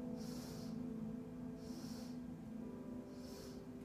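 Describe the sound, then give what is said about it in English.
Three faint, evenly spaced sniffs of breath drawn in through the nose during a seated, guided centering breath exercise. Each is a soft, airy hiss over a low, steady background hum. “Here's breath number one. So we're going to breathe in through the nose 3 times.”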